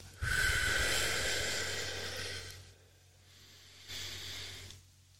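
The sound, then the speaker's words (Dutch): Breathing exercise exhales: a long, loud, breathy exhale, then a pause and a shorter, fainter breath out. Both are heard alone, with no talk over them. “En we ademen terug uit.”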